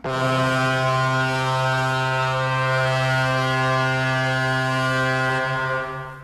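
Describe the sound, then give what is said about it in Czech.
A ship's siren blares as the vessel reaches Colombo harbour at night: one long, loud, deep and steady tone, rich in overtones, held for about six seconds before it tails off. “siréna se rozhoukala.”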